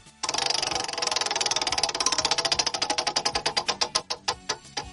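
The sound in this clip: A spun prize wheel gives off rapid ratcheting clicks that start as a fast, dense rattle and gradually slow to many distinct, widely spaced ticks as it winds down.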